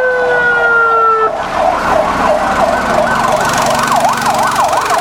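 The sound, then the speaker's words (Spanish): Ambulance siren as the vehicle leaves with people evacuated from a deadly fire at a town hall in El Alto. It plays loud and continuous with no talk, starting as two steady tones, then switching to a rapid rising-and-falling wail. “Sale la ambulancia con las personas que han sido evacuadas.”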